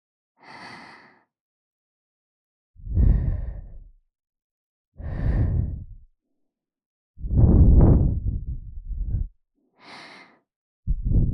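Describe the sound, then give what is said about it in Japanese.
Breath blown onto an ear at the end of an ear-cleaning session to clear small bits of earwax: several separate puffs with quiet gaps between them, some airy and hissing, others deeper and fuller whooshes. “最後にふうふうして小さい耳垢を飛ばしちゃいますから”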